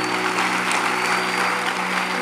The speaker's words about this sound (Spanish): Dale un aplauso a Dios por eso, iglesia.